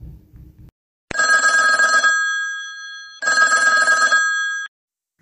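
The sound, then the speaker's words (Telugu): A telephone rings with an incoming call to a police inspector at the station. It gives two loud bursts of bright, trilling bell ringing separated by a short gap, and the first burst fades away gradually. “కొంత సమయం తర్వాత inspector వినీషాకి ప్రీతి నుంచి call వస్తుంది”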